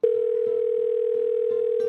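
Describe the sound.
Telephone dial tone while a dropped call is redialed: a steady, unbroken mid-pitched tone that lasts about two seconds, with faint soft clicks beneath it.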